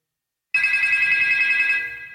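A telephone rings with an incoming call. After half a second of silence, a steady, bright electronic ring tone sounds continuously, tapering slightly toward the end.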